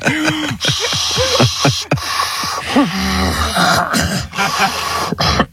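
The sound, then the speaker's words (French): A voice imitates the heavy mechanical breathing of a masked film villain: a run of many rasping, hissing breaths with a throaty, voiced edge, fairly loud and carried alone without words. “je crois être le seul au monde à pouvoir respirer comme Dark”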